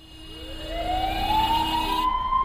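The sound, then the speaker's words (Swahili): A government ambulance siren wails upward in pitch over a low rumbling engine. The tone grows steadily louder and holds near the top of its sweep. “Ni gari la wagonjwa maarufu kwa jina la ambulance likiwa limembeba Rupert ambaye anaelekea nyumbani.”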